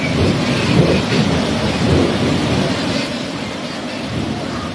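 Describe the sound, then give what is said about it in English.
Torrential rain and strong winds of a super typhoon lash a district of Cagayan province. Pouring rain makes a dense, continuous roar, joined by deep gusty rumbling that stays loud and steady throughout. “This is the sound of torrential rain and strong winds lashing the Patuig district.”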